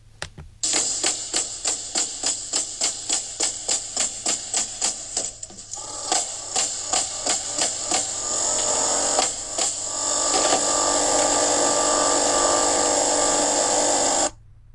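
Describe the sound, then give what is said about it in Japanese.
A carpenter's pneumatic nail gun fires many sharp, evenly spaced shots, then quicker irregular ones, over the steady hum of its compressor, which runs on alone near the end. “本気の大工さんの、あの、そうね、釘打ちコンプレッサーの音はね、気持ちいいの分かる。”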